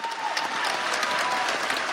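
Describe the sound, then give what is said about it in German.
A full theatre hall gives a standing ovation after a veterans' theatre performance. The clapping is a dense, unbroken wash of many hands, loud and steady throughout. “Der Applaus für das Veteranentheater dauert bis zu 15 Minuten. Der ganze Saal applaudiert im Stehen.”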